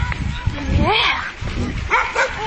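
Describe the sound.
A female dog gives a few short barks and yips, with a person talking alongside.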